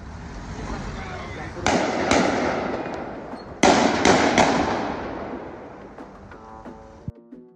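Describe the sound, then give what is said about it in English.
Gunshots ring out in a city centre during a terror attack in Brussels: about six sharp, loud cracks in two close clusters, heard over a continuous noisy street background. “This is the moment where shots rang out in Brussels city centre.”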